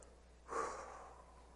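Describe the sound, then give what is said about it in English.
A single slow, deep breath is demonstrated as an anger-management calming technique, a faint airy breath that swells after a short pause and then tapers off gradually. “The first one is take 10 slow, deep breaths. When you get angry and you're getting ready to do something, all of a sudden just go,”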